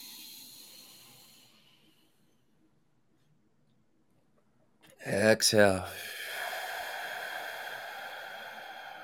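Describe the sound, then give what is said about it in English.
A big breath is pushed out in a long exhale during a guided breathing exercise. Near-silence gives way to a short, sharp voiced burst, followed by a steady, breathy hiss that lasts several seconds. “Two more, big giant breath. Push it out.”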